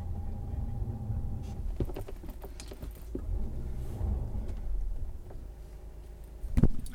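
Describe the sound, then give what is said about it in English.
Car wheels spinning in snow as a snowed-in car on a rural Maine road tries to pull forward: a steady low engine rumble with scattered scraping clicks, ending in a louder rough burst. “I backed out of the spot, but I cannot pull forward. The wheels are just spinning.”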